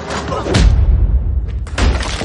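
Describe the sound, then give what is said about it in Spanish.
A young man's punch in an action film lands as one deep, booming thud, followed by a low rumble and a second sharp hit near the end, with a voice speaking over part of it. “El joven le propina un puñetazo.”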